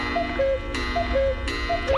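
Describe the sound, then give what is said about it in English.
A cuckoo clock sounding three two-note cuckoo calls, each a higher note dropping to a lower one, evenly spaced, with soft mechanical clicks between the calls. “Oh, the cuckoo clock. That means it's time for me to go.”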